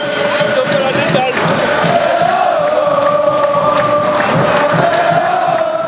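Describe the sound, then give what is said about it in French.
Football stadium crowd sings and chants after a 3-0 win that sends the team to the final. Massed voices hold sustained, tuneful notes, loud and unbroken throughout. “quand on voit le public là, qui nous appelle, qui chante, après 3-0, on est en finale, c'est fantastique”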